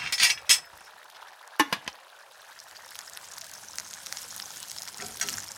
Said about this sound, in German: So, fertig gerührt. Jetzt noch ab ins Waffeleisen.